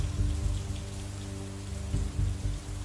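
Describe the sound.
Steady rain falls in a soft, continuous patter over a low rumbling texture, with no voices.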